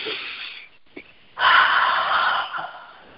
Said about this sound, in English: Take a deep breath.